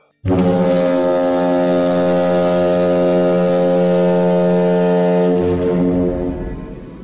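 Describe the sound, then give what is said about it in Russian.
A ferry's horn sounds as the vessel leaves a bay at sea in the evening: one long, loud, deep and steady blast, rich in harmonics, held for about six seconds before trailing off. “Паром дал 4 прощальных гудка.”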